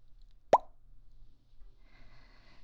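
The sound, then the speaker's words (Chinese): A single sharp cork pop sounds as a corkscrew opens a bottle of red wine. The pop is short, crisp and clear against near silence. “那我现在拿瓶起帮你打开。”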